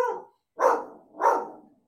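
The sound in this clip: A dog barking three times, short gruff woofs spaced about half a second apart, the first cut off at the start, with quiet between them.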